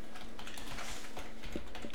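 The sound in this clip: Keyboard typing as someone writes down a slogan: a quick, continuous run of light clacking keystrokes at a fairly faint, even level, with no voices.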